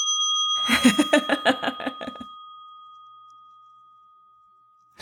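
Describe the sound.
A bell rings in a quick run of about ten bright strikes over a steady high ringing tone. The strikes stop after about two seconds, and the tone fades out slowly.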